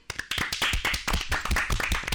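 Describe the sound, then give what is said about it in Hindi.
An audience applauds a girl who took second rank at an inter-district sports competition. Many quick, loud hand claps merge into a dense, steady clatter. “जोरदार तालियां हो जाए इसके।”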